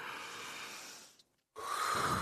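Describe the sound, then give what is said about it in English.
A deep breath, heard as a long, soft airy rush, then a brief silence and another strong, breathy rush of air; faint and alone, with no talk. “Everyone, take a deep breath with me.”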